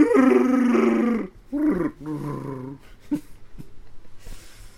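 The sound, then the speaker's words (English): A human voice imitates a Wookiee growl in a few rough, throaty bursts. The first is long and loud, and the later ones are shorter and quieter. “That's my one thing that I like. I like making Wookiee noises.”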